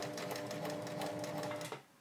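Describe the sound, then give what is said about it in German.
A sewing machine stitches fabric in a fast, steady rhythm of rapid needle pulses, then stops abruptly just before the end, leaving a quieter hum. “und einfach weiter nähen. Ja, nur gucken, dass man keine Falten reinnäht.”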